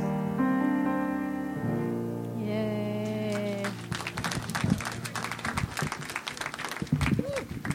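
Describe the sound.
Audience applause breaks out after a performance, with many dense claps. The clapping starts about halfway through as sustained tones fade, and it stays fairly faint and steady until the end.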